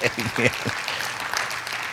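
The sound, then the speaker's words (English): A church audience claps along during a lively sermon, a brief voice opening before a steady wash of many hands clapping at moderate volume. “Clap our hands to the Lord.”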